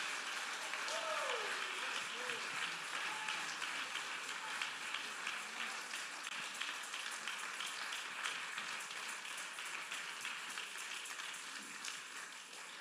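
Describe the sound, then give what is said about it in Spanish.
Congregation applauding during a church worship service: continuous, dense clapping that holds steady throughout, with a voice briefly audible early on. “Dale aplauso más fuerte.”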